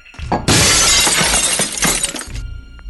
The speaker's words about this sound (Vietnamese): Tiếp theo, một loạt thanh âm vỡ vụn liên tiếp truyền tới.